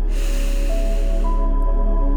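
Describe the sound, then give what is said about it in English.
Deep inhale through the nose: a steady, airy rush of breath that lasts about two seconds at an even loudness over a soft sustained tone. “Taking deep inhales in through the nose”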